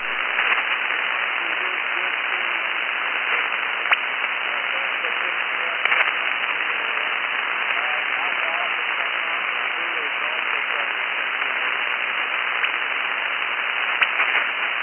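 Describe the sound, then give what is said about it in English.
A weak, barely readable amateur radio check-in is buried in steady, band-limited hiss and static for the whole stretch, with a few brief clicks breaking through. “about all I got out of that was that you're checking in, just not readable at the moment, just barely enough RF to get a call sign.”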